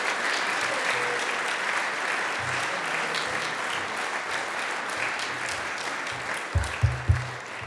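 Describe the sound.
Audience applause welcoming Dr. Harold Graves, Jr., as he rises to give his tenth report as president: steady, even clapping throughout, with a few heavier thumps near the end.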